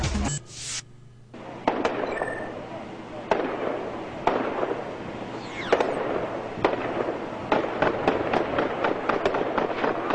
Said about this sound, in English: Like gunfire to me, man. That is the sound of premeditated murder, according to police. Gunfire erupting as a gunman waiting and hiding